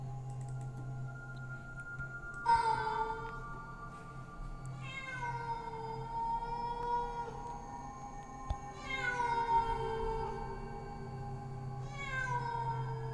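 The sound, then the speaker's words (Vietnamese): Wild cats yowling mournfully after nightfall, several drawn-out meows that each slide down in pitch, spaced a few seconds apart over a low steady hum. “Điều kỳ lạ là những con mèo rừng lại bắt đầu loanh quanh đâu đây, kêu lên những tiếng thê thiết lắm.”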